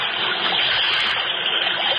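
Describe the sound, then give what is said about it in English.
Rushing water cascading down mountains, like a fast river, makes a steady, loud, unbroken hiss that holds even for the whole stretch with no voices. “The Los Angeles River rises to meet us, and the happy waters cascade down the mountains.”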